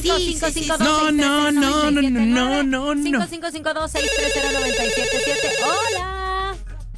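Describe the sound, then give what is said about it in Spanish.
A telephone rings during a phone call made to complete a hidden-phrase game, sounding as a steady, bright electronic ring tone lasting about two seconds. It follows loud, excited voices that talk over music beforehand. “¡complete la llamada!”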